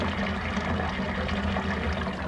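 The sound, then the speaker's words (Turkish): Water is poured from a copper jug over someone's head, a continuous splashing rush that stays steady for the whole clip. “Şu güğümle başıma su döker misin? Soğuk suyla mı yıkayacaksın başını?”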